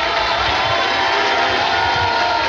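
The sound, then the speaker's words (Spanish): Loud, sustained applause from the stands at a ceremony in a Salón de Honor, a dense, even wash of clapping that holds steady throughout without a break. “cuando se escucha un aplauso importante, arrollador, principalmente de las gradas, no tanto así de las autoridades que se encuentran abajo, las representantes políticos.”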